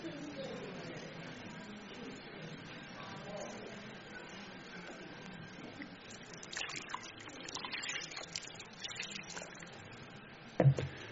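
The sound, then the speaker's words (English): Faint water sloshes and trickles in a basin as feet are washed, ending with a brief sharper splash. “He started to wash his disciples' feet.”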